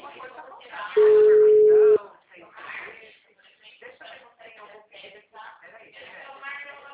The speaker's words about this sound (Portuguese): caiu de novo a ligação?